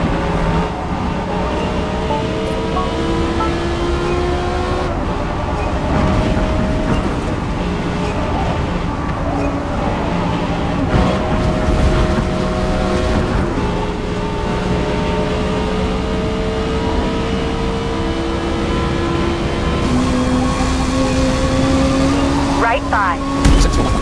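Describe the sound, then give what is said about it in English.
A racing car in a video game rolls slowly at pit lane speed toward its pit box, its engine a steady, even drone of layered tones that runs throughout without a break. “Your car moves at the slow pit lane speed towards your pit box.”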